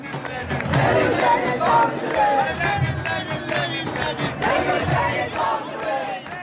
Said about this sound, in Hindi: नई दिल्ली की जवाहरलाल यूनिवर्सिटी में ये नारे आम हैं, लेकिन रविवार को ये विशेष उपलक्ष में लगाए गए।